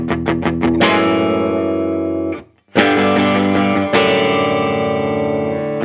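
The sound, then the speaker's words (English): A brand-new Gretsch G6131-MY Malcolm Young Signature Jet electric guitar plays loud distorted chords: a few quick opening stabs, then ringing sustained chords, a brief break, and more heavy strummed chords. “Boy, that sounds good. A Gretsch. Mm. This is a brand new Gretsch.”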